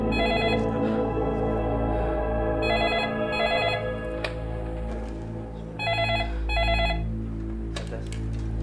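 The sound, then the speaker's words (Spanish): A telephone rings with an incoming call in short trilling bursts, mostly in pairs, loud and bright above a steady low background. “la familia Dinis recibe otra llamada”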